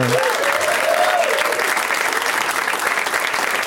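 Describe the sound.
Audience applause welcoming four guests onto a show: loud, dense clapping that holds steady throughout, with some voices mixed in near the start.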